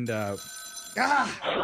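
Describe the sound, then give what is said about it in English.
An old rotary telephone rings, a faint, steady metallic bell tone sounding briefly between and beneath people talking. “My grandma's rotary phone is ringing.”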